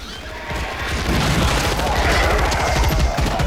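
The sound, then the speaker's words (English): Sustained gunfire as retreating troops shoot at a giant bug. Many rapid shots blur into a dense, loud, steady roar that holds for the whole clip. “As the troops retreat, they fire at the bug.”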